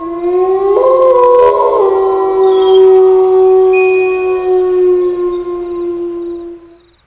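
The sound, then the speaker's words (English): A wolf howls one long, sustained, steady note that swells and holds before fading out, with fainter, higher howls overlapping partway through. “It howls and pack answers.”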